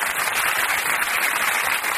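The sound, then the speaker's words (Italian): Steady applause from an audience at a talk on cinema technique: a dense, continuous crackle of many hands clapping at even loudness through the whole stretch, with no voices over it. “Un bel applauso, ci stava, benissimo, per carità”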